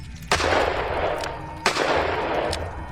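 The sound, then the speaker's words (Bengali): Two gunshots ring out, each a sharp loud crack followed by a long rumbling tail. They are spaced over a second apart, with no voices. “তিনি তাদের লক্ষ্য করে দু round গুলি চালালেন”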